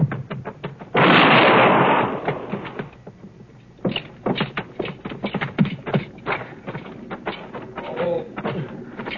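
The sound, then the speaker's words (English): A gunshot in a western radio drama about an arrest: a single loud, harsh blast lasting about a second, followed by a series of scuffling, clattering knocks and movement sounds. “Stop or I'll shoot.”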